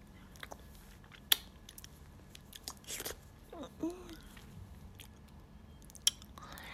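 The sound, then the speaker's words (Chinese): Wet kissing sounds and lip smacks, quiet and close, with a few sharper smacks standing out among softer moist mouth noises. “哦，让我亲一口嘛。”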